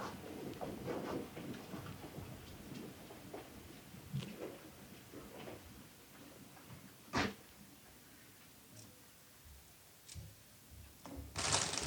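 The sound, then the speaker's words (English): Outer leaves peeled by hand from Brussels sprouts make quiet, continuous rustling and crinkling, broken by a few sharper crackling snaps as leaves tear away. No one speaks. “This is actually me peeling the Brussels sprouts, preparing them, so peeling off the outside.”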